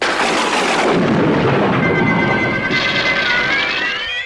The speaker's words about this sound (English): a mini cosmic storm erupts from nowhere, complete with lightning and electrical discharges emanating from the crown itself.